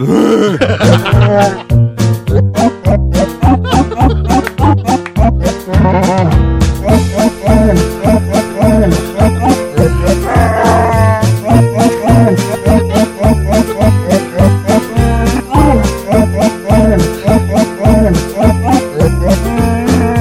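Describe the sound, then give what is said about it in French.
Growling, groaning voice imitating Chewbacca, the Star Wars Wookiee, sings a Christmas song over a loud, continuous musical backing with steady rhythm. “Chewbacca, tu le connais? Oui. Il nous fait sa chanson de Noël.”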